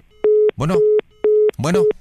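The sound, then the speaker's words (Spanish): Telephone tone after a dropped call: four short, steady mid-pitched beeps repeating about twice a second, with a voice talking between and over them. “no sé si colgó, se enojó o se chispó la llamada, pero pues el chiste es que pues ya se cortó”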